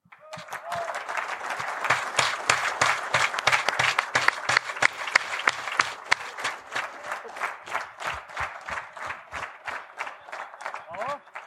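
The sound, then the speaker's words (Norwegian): Loud, sustained applause fills the room at a live evening talk event as the audience welcomes the next speaker: dense, rapid clapping from many hands, steady throughout with a few sharper individual claps standing out. “Og det synes jeg vi bare drar til med en kjempeapplaus til Anette Holen.”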